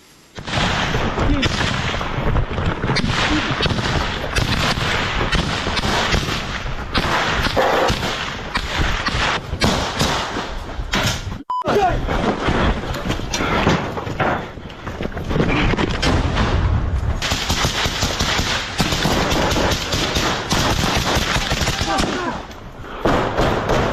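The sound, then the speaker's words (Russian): Small-arms firefight in Kupiansk, Ukraine, fought by soldiers of the 8th Regiment of the Special Operations Forces: dense, continuous volleys of sharp gunshots and heavy thuds that crackle and pound without letup, with a brief lull near the middle. “Это стрелковый бой, который ведут бойцы 8-го полка сил специальных операций.”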